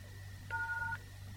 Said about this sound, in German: Wenn Sie eine Mailbox haben, drücken Sie bitte die Raute-Taste.